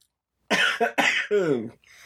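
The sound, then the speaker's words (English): A short run of coughing, about four harsh, voiced bursts in quick succession with a brief throat-clearing quality, fairly loud against an otherwise quiet background. “We gotta get you a mute button so you can cough, you know.”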